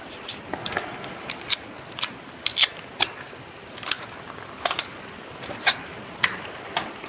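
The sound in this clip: Adhesive tape pulled out and wrapped in a circle around a cup: a continuous crackly hiss dotted with many sharp, irregular clicks and snaps, with no voices.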